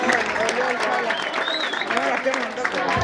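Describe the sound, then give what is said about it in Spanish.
Audience applause at a live event in Argentina, a dense, steady wash of clapping that holds level throughout, with voices calling out over it. “¡Aplausos, gente!”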